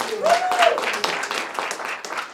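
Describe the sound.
Cheering and clapping fill the Durango Juvenile Court Center in Phoenix as an adoption is finalized. A steady patter of applause runs throughout, with a rising whoop from a voice early on.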